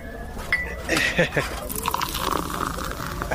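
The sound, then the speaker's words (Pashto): Tea is poured into a cup with a liquid gush and a light clink, while people talk over it. “وایم اصیل سړی صبر چې یوه پیاله چای درته واچوم چې ستړی شوی به.”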